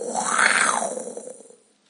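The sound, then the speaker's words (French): A man-eating tiger growls in one long, rough, throaty rumble that swells loudly, holds, and then fades away, with no voices. “Connaissez-vous cet animal terrible ? Oui, les enfants, c'est bien Shere Khan, le tigre mangeur d'hommes.”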